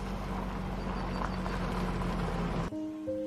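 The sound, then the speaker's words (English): An SUV drives along a dirt road, giving a steady low engine rumble and rolling road noise that cuts off abruptly near the end. “Now Shane drives his SUV along a dirt road.”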